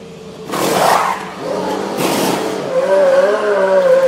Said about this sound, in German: Hier zwei Sekunden, 1,97 Sekunden braucht das Boxenstopp-Team von Ferrari, um die Reifen zu wechseln, um zu betanken